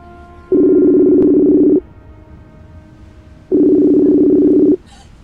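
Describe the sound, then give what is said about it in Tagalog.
A telephone calling tone sounds while a call is placed: two long, steady, buzzing tones of about a second each. A pause of roughly two seconds separates them, over a low background hiss. “Oh, wait a minute, someone is calling.”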